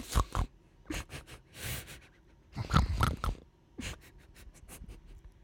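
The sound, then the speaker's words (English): A quick, sharp intake of breath turns into snorting, heard as many short, harsh nasal snorts and grunts in an uneven burst-and-pause rhythm, alone without talk. “You ever breathe in so fast you snort?”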